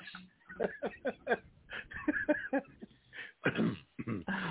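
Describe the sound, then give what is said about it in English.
Throat clearing and coughing from someone with something caught in the throat: a run of many rough, gravelly bursts in uneven rhythm, some with a voiced, speech-like edge, moderately loud, ending in a few harsher coughs. “Something caught in my throat. Clearly something caught in my throat.”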